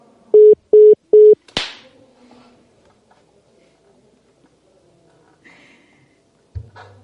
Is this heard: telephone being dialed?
yes

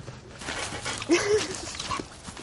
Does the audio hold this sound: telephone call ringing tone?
no

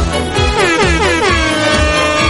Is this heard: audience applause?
no

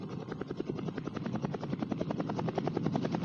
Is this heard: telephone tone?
no

